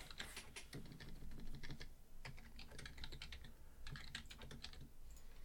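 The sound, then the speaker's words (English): Typing on a computer keyboard: rapid, irregular clicking of keys in bursts, with brief pauses around the middle. The clatter is steady and moderately loud, with no voices. “let me just type up the rest of them, and then we can do this”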